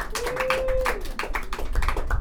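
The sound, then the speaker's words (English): An audience giving itself a round of applause, many claps in a dense, uneven patter that holds steady throughout. “Let's give ourselves a round of applause.”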